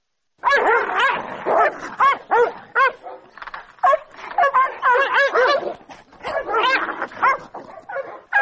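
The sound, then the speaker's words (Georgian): Caucasian shepherd dogs fighting in an organised dog-fight contest in a forest near Tbilisi: a loud, continuous, uneven tangle of barks, snarls, yelps and whimpers that runs almost without a break. “ძაღლების ასეთი ორთაბრძოლა”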